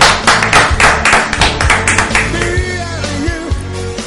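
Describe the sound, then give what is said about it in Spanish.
Clapping from a small group in a Spanish online radio studio: a burst of quick, uneven claps, loudest early on, that thins toward the end with faint tonal sounds underneath. “Un aplauso, por favor. Vamos a dar un aplauso.”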